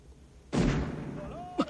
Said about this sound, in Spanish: La enfurecida mujer sale de la casa donde unos tipos disparan al aire desde una camioneta.